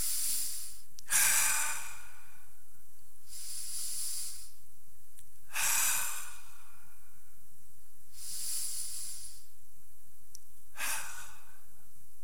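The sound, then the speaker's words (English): Slow, deep human breathing during a guided prayer practice: five soft, airy rushes of breath with sighing exhalations, spaced by quiet pauses of a couple of seconds, fairly faint and with no talking. “These deep, deep, deep breaths in, and I sigh it out.”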